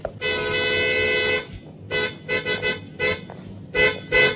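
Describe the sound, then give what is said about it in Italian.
A car horn honking, a very sensitive horn set off by barely touching it with an elbow: one long steady blast, then a string of several short, uneven toots separated by brief gaps. “Ah sì, ho appoggiato appena il gomito. È un clacson sensibilissimo. Basta toccarlo, vede?”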